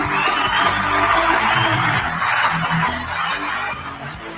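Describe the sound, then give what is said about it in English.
A loud, continuous roar of audience cheering and whooping, with clapping mixed in, holds at a steady level from start to finish. “Bro, a lot of applause this week.”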